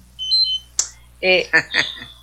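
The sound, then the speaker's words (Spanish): A blood sugar alarm beeps in thin, high tones near the start, then people talk in Spanish with short bursts of speech. “Oye, ¿qué está sonando por ahí? Yo soy. Su campanita. Tengo la azúcar bien bajita, 252.”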